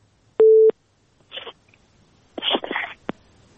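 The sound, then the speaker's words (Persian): A telephone busy-signal tone from a call-in connection that failed: one short, steady, mid-pitched tone, followed by a few brief bursts of noisy line crackle over near silence. “بله متاسفانه تماس ما درست برقرار نشد”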